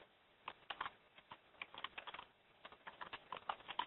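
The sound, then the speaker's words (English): Keys clatter faintly on a computer keyboard during coding work, with quick, irregular bursts of keystrokes and short pauses between them. “And type.”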